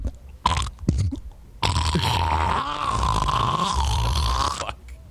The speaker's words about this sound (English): Wow, you dropped him with a phlegm ball.